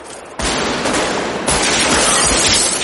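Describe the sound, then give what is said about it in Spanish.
Police officers fire from a cordon in a loud, dense barrage during a street shootout. Overlapping shots merge into continuous crackling, with a sharper surge of fire partway through. “Otros dos le disparan desde el cordón.”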